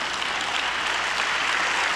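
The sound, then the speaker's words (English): An audience claps its hands during a service, a continuous dense patter of many hands that holds an even level from start to finish. “I need you to stand and come on, clap those hands.”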